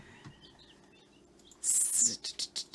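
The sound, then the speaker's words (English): Chicks on a live chick cam peep in a burst of bright, high-pitched chirps, followed by a few short, repeated tweets. “There's lots of chicks in front of the cam there. They're so cute. I don't know what we're going to do when there's no chick cam.”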